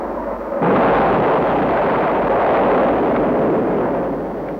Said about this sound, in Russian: А это уже настоящий бой. Вот как звучит стена такого боя.